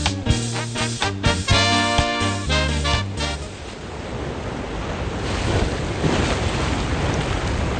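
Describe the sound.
Ocean waves and wind make a steady, broad rushing wash that swells gently for several seconds, after a few seconds of tonal, music-like notes at the start.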